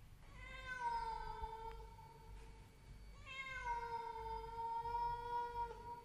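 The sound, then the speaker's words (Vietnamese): A cat yowls mournfully in two long, drawn-out wavering cries, the second louder and longer, over a steady low rumble. “Cùng lúc ấy có tiếng con mèo ở đâu kêu lên nghe thê thiết.”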